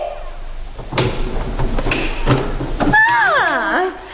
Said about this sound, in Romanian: plină de sfială, ciocăni ușurel în ușa din lemn înnegrit, cioplită în formă de inimă. Cine bate?